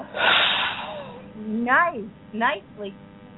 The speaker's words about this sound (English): When I say three, you're going to let it out. Okay. Okay. All right. So inhale. One, two, three, blow it out.